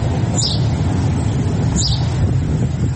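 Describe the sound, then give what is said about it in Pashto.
A bird cries out twice, giving two brief, high, sharp calls spaced apart over a constant low background rumble. “د مرغۍ چغه په خود کړ”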